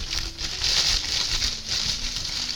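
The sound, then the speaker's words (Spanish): Crinkling like a paper bag: a steady, dry rustle with faint crackles that runs throughout at moderate loudness, with no talk. “suena como una bolsa de papel”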